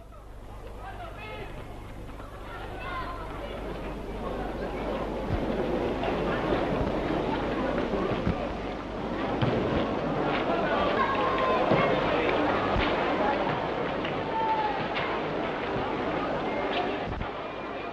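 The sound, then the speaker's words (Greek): Football fans cheering at an August 1944 match in the Theresienstadt ghetto, taken from an archival film soundtrack: a dense, continuous roar of many voices that swells after the first few seconds and holds steady under a layer of hiss. “Και τώρα νομίζω ότι ήρθε η ώρα να ακούσουμε τους ήχους της Ιαχίας των Φιλάθλων από εκείνο τον αγώνα ποδοσφαίρου που δόθηκε τον Αύγουστο του 1944.”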